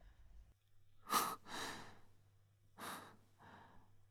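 Panting breath of an exhausted person leaning against a bookcase: four quiet, breathy in-and-out breaths in two pairs, separated by a short pause.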